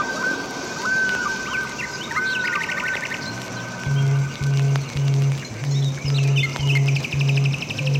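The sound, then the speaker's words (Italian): A blackbird sings a few warbled phrases and high trills, fairly faint, over a steady low hum. A row of regular low tonal pulses joins in the second half. “Ecco il merlo.”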